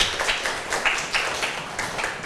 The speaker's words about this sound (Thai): เก่งมากค่ะปรบมือให้เพื่อนเลย